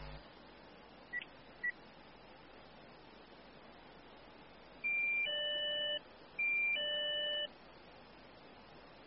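Phone or intercom dialing tones: two short electronic beeps are followed by two longer steady tones, each about a second, over a faint constant hiss.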